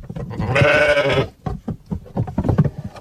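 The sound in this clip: Sheep bleating in a grazing flock of black and white sheep: one loud, drawn-out bleat followed by several shorter bleats and scattered animal noises.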